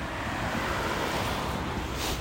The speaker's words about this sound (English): Y'all hear that water?